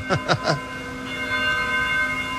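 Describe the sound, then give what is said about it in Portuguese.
Restored cathedral church bells ring out, one of a set of six. Three quick, bright strikes come close together, followed by a steady, sustained ringing hum that lingers to the end. “vocês viram lá na entrada da nossa catedral os sinos. Os 6 sinos foram restaurados, graças à ajuda de todo mundo, ó. Aí, ó, tá até tocando.”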